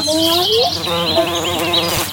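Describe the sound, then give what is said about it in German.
Bumblebees buzzing as they greet each other make a steady, droning hum with wavering, sliding tones that stays fairly loud throughout. “Das ist der Hummelflug. Und wir haben sogar ein Hörbeispiel, wie sich die begrüßen.”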